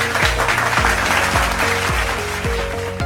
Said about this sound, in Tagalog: Napakahusay! Palakpakan ang inyong mga sarili.